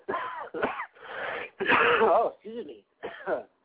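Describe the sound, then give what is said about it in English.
Someone coughs and clears their throat after something went down the wrong pipe: a string of rough, raspy bursts, some strained and partly voiced, separated by brief pauses. “Went down the wrong pipe, excuse me, y'all.”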